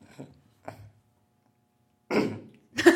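Coughing from someone with something stuck in the throat: two faint, short coughs, a silent pause, then two louder, harsher coughs close together.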